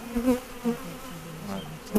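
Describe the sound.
Bees buzz around five beehives at the back of a park in Paris, shaded by linden trees. A steady low drone swells into a few louder passes, with no talk.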